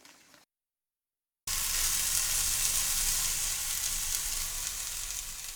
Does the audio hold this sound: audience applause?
no